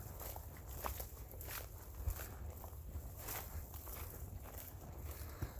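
Footsteps of a person walking, a steady run of faint, soft steps with light rustling throughout.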